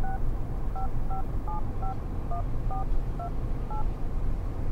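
A telephone number is dialled on a keypad, producing a quick series of short dual-tone beeps at shifting pitches over a steady background hiss.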